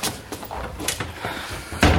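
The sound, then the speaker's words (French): A door being closed gives a single sharp thump near the end, after a few faint knocks and shuffling sounds. “Attends, je ferme la porte.”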